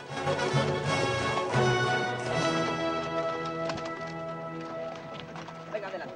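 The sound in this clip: Hooves clip-clop as a group of horses with riders descends a grassy hill in single file, a steady patter of hoofbeats running under a speaking voice.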